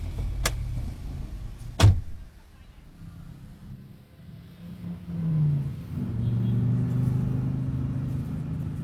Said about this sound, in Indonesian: Ayo, ayo naik mobil.